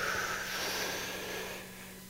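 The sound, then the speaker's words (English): A person takes a slow, deep inhale during a guided breathing exercise. The breath is a soft, steady, airy hiss with no talk, fading slightly toward the end. “on the count of three, here we go. One, two, three. Inhale.”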